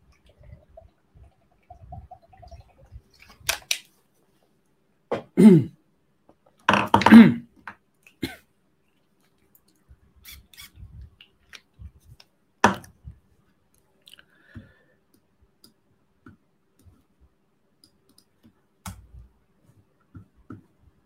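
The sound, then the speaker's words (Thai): Someone drinking water, heard as a few short gulping and swallowing sounds mixed with small mouth clicks. The sounds are separated by long quiet gaps, and no one speaks. “ขอดื่มน้ำอีกทีหนึ่ง”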